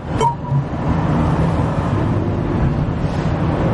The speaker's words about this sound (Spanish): La pantalla del GPS muestra la autovía por la que avanza el coche de Iván.